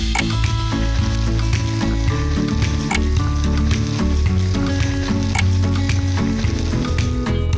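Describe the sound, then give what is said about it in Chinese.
Food fries in salad oil in a pan with a loud, steady sizzle that runs without a break, scattered with crisp crackles and pops throughout. “好了，现在可以煎”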